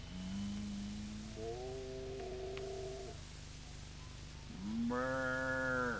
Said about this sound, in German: Das scheint mir hier ein tölplich Bauernvolk zu sein, das mitternächtlich laut sein Vieh auf Weiden brüllen lässt.